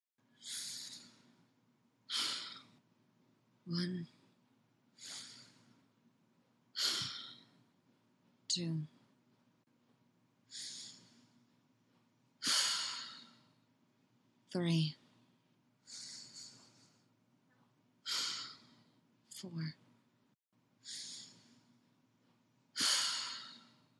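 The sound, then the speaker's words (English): A woman takes long, deep breaths, slow and unhurried, each drawn in and let out in an even, regular rhythm. They are soft and breathy, with quiet pauses between them. “Leia takes 7 long, deep breaths as she waits for her pulse to slow to the point she can resume her duties.”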